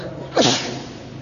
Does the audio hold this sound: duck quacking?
no

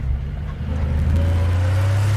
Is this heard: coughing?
no

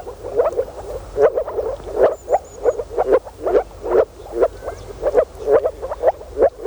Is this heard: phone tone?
no

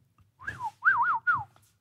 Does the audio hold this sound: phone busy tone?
no

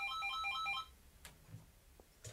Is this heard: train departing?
no

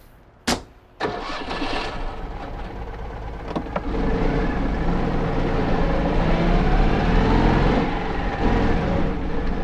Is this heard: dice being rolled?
no

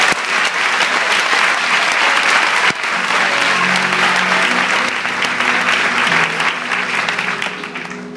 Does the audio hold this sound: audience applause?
yes

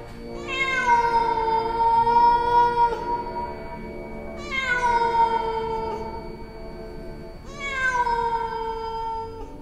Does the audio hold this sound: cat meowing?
yes

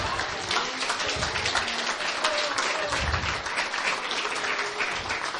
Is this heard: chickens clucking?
no

